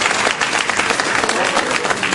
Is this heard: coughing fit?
no